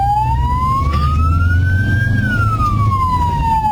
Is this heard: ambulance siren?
yes